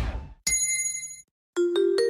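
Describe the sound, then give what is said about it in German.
A gong-like chime signals a drinking break. One bright ringing strike fades away, then after a brief silence a few quicker chime notes sound in succession. “Trinkpause. Der Gong.”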